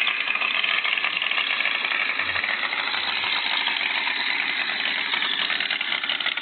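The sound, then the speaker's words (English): A large engine idles steadily at about 1275 rpm, giving a loud, even, rattly drone that holds constant throughout with no change in pace. “So much of an absolute monster. This thing's consistent at like a 1275 idle.”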